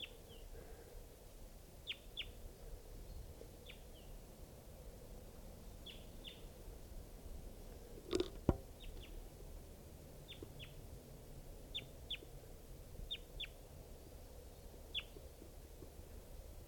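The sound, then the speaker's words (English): Wild crossbill calling in Tucson, a series of faint, brief, high chip notes scattered at irregular intervals over a low background hiss, with a sharp click near the middle. “this is a wild crossbill.”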